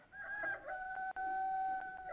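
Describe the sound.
A rooster crows in a long, drawn-out, tonal call that breaks off briefly and then carries on at a steady pitch. It is heard alone, without voices.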